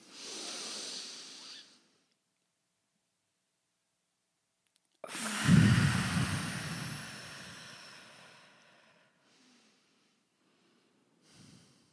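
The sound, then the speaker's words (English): A deep inhale taken during a guided breathing exercise: a soft breathy rush, then a held silence of about three seconds, followed by a long, loud exhale that starts with a low rumble and slowly fades. “And then we'll do a deep inhale. Okay. Hold it at the top.”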